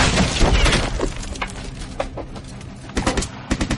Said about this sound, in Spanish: lanzan dos granadas.